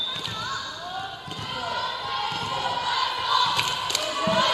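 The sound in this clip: Volleyball bounced on the floor before a serve in a school volleyball match, with several dull, evenly spaced thuds under constant crowd noise.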